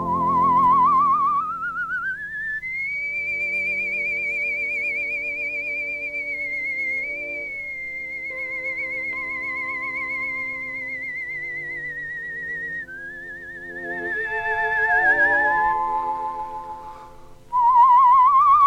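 A man whistles a melody in a music recording, holding long, high, warbling notes with vibrato and sliding smoothly between pitches, steady and fairly loud throughout.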